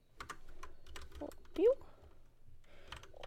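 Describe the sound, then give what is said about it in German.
Rapid clicking of a computer keyboard as an email is typed: many quick keystrokes at a fairly even level, with one brief louder sound near the middle. “Ich schreibe ihm eine Mail.”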